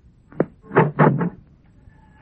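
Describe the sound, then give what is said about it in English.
A door being opened: a short click, then a cluster of three dull, rattling thuds in quick succession, followed by quiet. “Try the door.”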